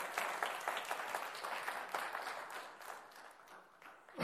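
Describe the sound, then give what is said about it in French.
An audience at a Pentecostal church service applauds with many quick, crisp claps in a fairly faint, steady stream that slowly thins out, ending in a brief louder burst. “Oh, on va acclamer le nom de Jésus pour ça.”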